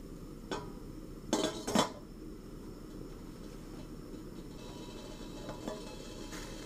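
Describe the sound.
A pot of warm, not yet boiling water is set back on the stove for cooking sour soup, giving a few faint metallic clanks and scrapes early on over a low, steady background hum, then near quiet.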